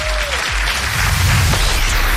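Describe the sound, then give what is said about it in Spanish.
Applause from an audience at an awards ceremony for books about music: a dense, steady wash of clapping that stays fairly loud and even throughout. “Eso, aplauso, aplauso, aplauso.”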